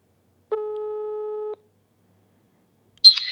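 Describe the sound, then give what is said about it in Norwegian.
A single telephone ringback tone on a call to a hair salon in Tromsø: one steady, mid-pitched electronic beep lasting about a second, followed by silence. “Så tenkte jeg vi skal prøve å ringe Stenersen frisørsalong i Tromsø”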